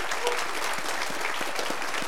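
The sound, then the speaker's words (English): Audience applause for readers, instrumentalists and singers at a morning gathering: steady, even clapping from many hands, continuous and moderately loud with no pause. “I think that's worthy of another round of applause for”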